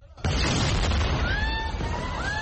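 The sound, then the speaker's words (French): An explosion in a hospital courtyard in central Gaza, with a helicopter overhead: a sudden loud blast that gives way to a sustained rumbling roar, with faint thin whining tones drifting through the latter half. “Un hélicoptère au-dessus, une explosion dans la cour de l'hôpital des martyrs d'Al-Aqsa, dans le centre de la bande de Gaza.”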